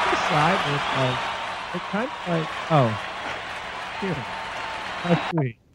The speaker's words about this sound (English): That actually sounded like a crowd being trampled by an elephant. He actually sent that to me. It was recording from his one of his recent sermons at his church.